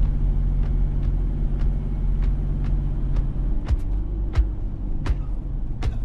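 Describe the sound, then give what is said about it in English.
Car tires roll along a road marked with a double yellow line, a steady low rumble overlaid by many faint, regular ticks that grow slightly sharper toward the end. “On a road, car tires zip along a double yellow line.”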